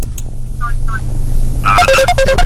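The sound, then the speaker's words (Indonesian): A phone rings with an incoming WhatsApp call, giving two short beeping tones and then a quicker run of tonal notes, alongside talk and a steady low hum. “Coba kita angkat yang telepon dari WhatsApp ya.”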